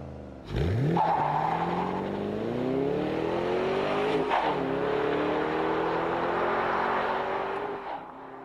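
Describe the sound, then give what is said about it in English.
A 2008 Ford Mustang Bullitt's engine revs loudly as the car drives. The deep roar climbs steadily in pitch, dips briefly as if shifting, then climbs again before another short drop near the end. “Here's the 2008 Bullet Mustang in action.”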